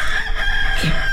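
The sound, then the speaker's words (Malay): A rooster crows once in a loud, drawn-out cock-a-doodle-doo that fills the whole short moment, with no talk over it. “Ayam berkokok, Mak.”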